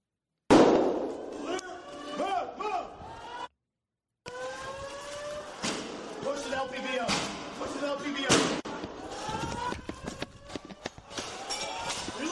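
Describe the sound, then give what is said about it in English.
Gunshots in police footage of a shooting in Nashville, a few sharp bangs heard among people talking. “Okay, that's the shooter right there. The officer just fired first shot. Boom, boom, drops, okay?”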